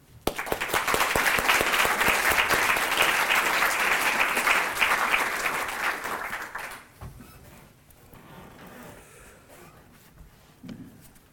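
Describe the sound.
A lecture audience applauds to welcome a professor: loud, dense, sustained clapping for about seven seconds that then thins to scattered claps and near quiet.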